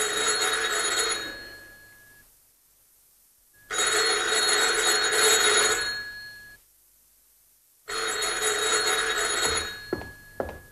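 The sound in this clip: A telephone ringing at night, with three long, loud bursts of bright, trilling bell separated by silent pauses. No voices are heard.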